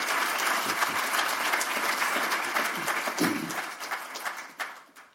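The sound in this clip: Audience applause welcoming two speakers to a conversation on stage at an evening writers' event, a full, steady burst of many hands clapping that slowly tapers and thins out toward the end.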